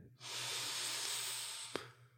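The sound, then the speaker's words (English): A deep breath taken during a closing meditation: one long, soft, airy hiss that holds steady for nearly two seconds and ends in a small click, with no talking over it. “Let's take one last closing breath here. Breathing in”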